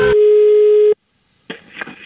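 A steady telephone line tone sounds while a call is being placed, holding a loud, even pitch for about a second before cutting off. A short quiet gap follows, then a few clicks and rustling.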